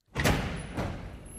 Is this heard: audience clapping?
no